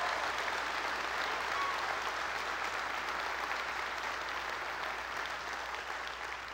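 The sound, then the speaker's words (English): During a church service, an audience applauds to welcome a visiting City Hope group. A dense, even wash of clapping holds steady from start to finish. “And then, for the first time, we're welcoming City Hope Baymanette. Can we give it up? They're with us right now.”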